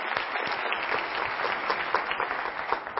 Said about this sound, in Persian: خب خودتون رو تشویق بفرمایید